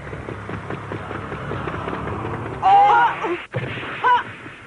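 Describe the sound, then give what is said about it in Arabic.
A powerful football kick sound effect from the Captain Majed anime lands as a heavy booming impact with a whistling tone, following a stretch of voices talking, then a brief cutoff and a second whistle-like burst. “ضرب الكرة بقوة، هذه قوية جدا ويمكن أن تصل إلى مرمى الفريق الآخر.”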